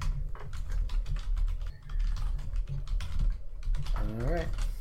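Computer keyboard typing as notes are written, a quick, uneven stream of light key clicks running steadily through the whole stretch.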